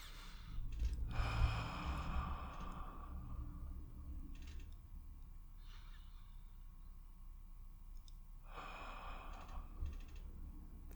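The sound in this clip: Slow, deep conscious breathing, faint and unhurried: two long, soft breaths, one near the start and another several seconds later, with quiet steady background noise between them.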